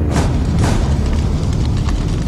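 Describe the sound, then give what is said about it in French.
Fire sound effect from a film: a dense, loud, continuous roar with deep rumbling lows and a couple of brighter whooshing surges near the start, with no voices. “Ça, c'est du feu.”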